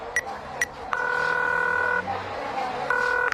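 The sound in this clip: A telephone number is dialed on a keypad phone as someone prepares to call their mother. Two brief electronic beeps are followed by two longer sustained tones, clear and steady over a quiet background.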